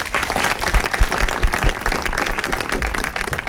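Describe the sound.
Audience applause welcoming guests on stage at a film evening, a dense, steady wash of many hands clapping that stays loud and even for the whole stretch.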